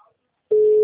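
A telephone ringback tone sounds while a call waits to be answered. After a short near-silence, a steady, single-pitched tone starts abruptly and holds loud and unbroken to the end.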